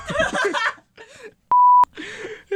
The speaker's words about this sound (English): You just heard beep beeps, but that's okay, because you don't have to know that guy's name.